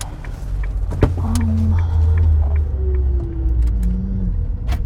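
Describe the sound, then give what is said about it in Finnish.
A car being driven at low speed and parked, a steady low engine drone with a sharp click near the first second and a few brief whirring tones that slide over the rumble. “Ajamme auton kulman taakse. Teen elämäni huonoimman parkkeerauksen.”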